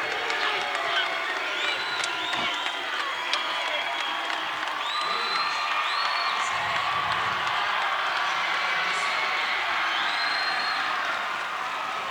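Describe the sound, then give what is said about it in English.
Crowd noise fills a basketball arena as a player goes to the free-throw line in a close game late in the final minute, a sustained roar with cheers and whoops, while a commentator talks over it. “And the crowd is getting anxious as Ruzala will go to the line, and his four teammates will back away at midcourt.”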